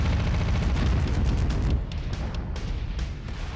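Artillery strikes exploding in a mech video game: a heavy barrage of overlapping booms and rumbling blasts, densest and loudest in the first half, then thinning into scattered, quieter impacts.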